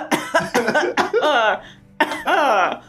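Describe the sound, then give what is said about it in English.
A person coughs in the background with a few harsh bursts in quick succession, followed by longer strained, voiced sounds, all fairly loud. “Stop coughing. You're here in the background. Stop, you fucking cough.”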